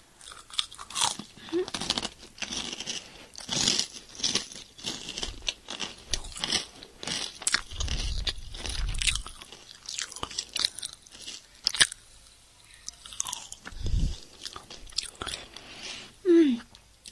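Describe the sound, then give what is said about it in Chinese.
Biting and chewing of food with many irregular crisp crunches and wet mouth sounds at a fairly quiet level, with soft breathy noises between bites. “你先把这口吃了，来啊，啊，吃掉，我也要吃”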